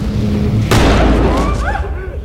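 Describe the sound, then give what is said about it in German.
A shotgun fires a single warning shot in a bank lobby during a staged bank-robbery reenactment. One loud, sharp blast cuts through steady background noise and trails off in a short rumbling decay. “Zwei feuert mit seiner Schrotflinte den Warnschuss ab”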